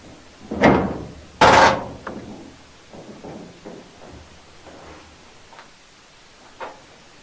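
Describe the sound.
A house door opens with two sharp, loud knocks or thuds close together, followed by fainter scattered clicks and rattles.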